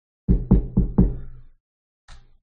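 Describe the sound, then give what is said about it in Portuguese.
Knocking on a door: four quick, solid knocks in an even rhythm, a pause, then one more single knock. “Depois de um tempo, quando vocês estão arrumando, preparando a residência, vocês escutam uma batida na porta.”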